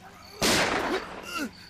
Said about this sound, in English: Shoot him again, man.